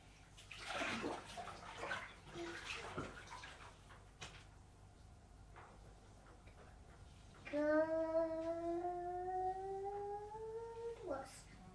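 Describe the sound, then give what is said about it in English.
Bathwater sloshes and splashes as a child washes in the tub, with voices talking over the water. Later a voice holds a long, slowly rising tone above the steady splashing. “I'm washing my bummy.”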